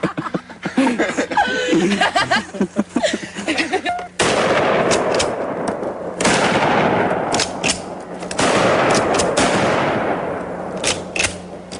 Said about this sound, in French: les deux copains jouent avec d'autres camarades avec des fusils à pompe, oui, des fusils à pompe, dans une forêt.